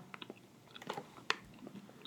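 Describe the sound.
Faint chewing and crunching from someone eating a purple sweet potato cake with a soft chiffon-like top and a flaky pastry base. Scattered small bites and crunches, one sharper than the rest, with no talk.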